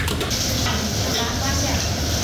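A spatula scrapes and stirs food in a large pan while a big batch of rice is cooked. Dense, continuous scraping mixes with a sizzling hiss, loud and steady throughout.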